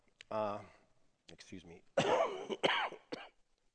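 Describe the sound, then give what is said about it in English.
A person coughs in a few harsh, throaty bursts separated by short pauses. “I'm going to do my best not to cough all over here, so you're in the splash zone of my germs”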